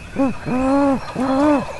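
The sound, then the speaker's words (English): A man imitates a great horned owl by voice during a turkey hunt on a ridge: three loud, resonant hoots, a short first one followed by two longer, drawn-out calls, each swelling and then dropping slightly in tone. “He takes a deep breath and hoots like a great horned owl.”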